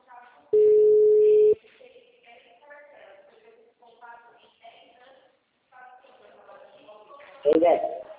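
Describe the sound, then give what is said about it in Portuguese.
A single steady ring tone of an outgoing phone call lasts about a second. Voices then talk on the line, and a louder burst of sound comes near the end. “tô te ligando aí.”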